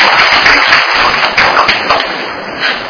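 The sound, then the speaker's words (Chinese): Applause from a group of listeners for a teacher, a dense, steady patter of many hands clapping that holds for about three seconds and eases off slightly toward the end. “好，给立柱老师拍手一下。”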